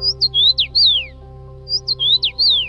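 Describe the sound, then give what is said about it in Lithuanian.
Common rosefinch song: clear, sweet whistled notes sliding up and down in a short phrase, sung twice with a brief pause between, over a faint steady low hum. “Girdite? Raudongalvės sniegenos yra išskirtiniai paukščiai.”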